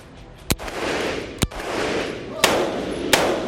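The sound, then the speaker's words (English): Military weapons fired at MacDill Air Force Base ring out as four sharp, loud reports, spaced irregularly over a steady rumble of background noise. “And these are the weapons that they use at war or whatever it may be. And when you come out here and see those guys shoot them,”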